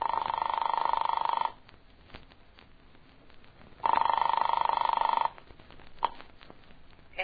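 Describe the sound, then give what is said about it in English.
An old rotary telephone rings on the line after being dialed: two long, steady electronic rings separated by a quiet pause, with no voices. “I flicked the telephone dial to the number in her note.”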